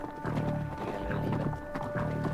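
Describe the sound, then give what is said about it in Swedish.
Horses gallop with riders aboard during a pursuit by a troop of soldiers, their hooves beating a rapid, steady clip-clop that runs throughout at moderate loudness. “Och det dröjde inte länge förrän vi hade dem efter oss. En hel tropp. Vi red. Orvar på fjalar. Och Jonathan och jag på grim.”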